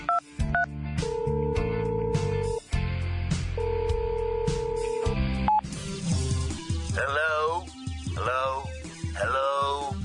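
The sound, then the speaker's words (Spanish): Touch-tone dialing of a telephone number to the White House: a few quick beeps, then two long steady dual-tone signals, followed by a voice speaking. “A ver, déjenme marco otra vez a la White House.”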